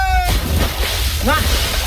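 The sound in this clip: People jump into a cold lagoon: a voice cuts off as a loud, broad splash bursts in and keeps churning, with a short voice rising briefly near the end.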